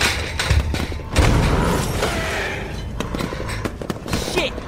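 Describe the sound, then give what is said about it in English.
A pipe bomb explosion: one sudden, heavy, low boom that bursts out loud and broad, then a long rumbling tail with scattered smaller thuds and clatter as it fades. “Use the pipe bomb. Everyone, down.”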